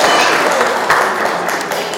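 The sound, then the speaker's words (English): Audience applause for a woman who answered a question correctly in a talk, a dense, steady wash of clapping lasting about two seconds and fading slightly toward the end. “Well, a big round of applause for Sue.”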